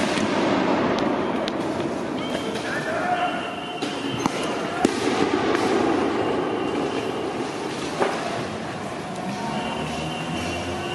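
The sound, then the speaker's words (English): Riot audio from outside the Hatfield courthouse in Portland, with rioters throwing tear gas canisters back at federal law enforcement: a dense, steady roar of noise broken by a few sharp pops and bangs. “he showed video of rioters throwing tear gas canisters back at federal law enforcement outside the Hatfield courthouse. Let's just listen to some of that audio.”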